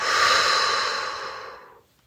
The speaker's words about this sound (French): Inspire en te remplissant et en levant ta nageoire. Expire en plongeant dans l'eau.